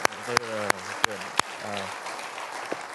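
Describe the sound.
A church audience applauds under a man talking, the clapping a faint, even wash behind his voice with a few sharp clicks standing out.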